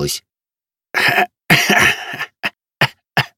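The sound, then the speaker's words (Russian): A man coughs harshly in a series of about six bursts: a couple of rough hacks, a longer drawn-out coughing fit, then three short sharp coughs spaced apart. “Я закашлялся и закрыл ладонью рот.”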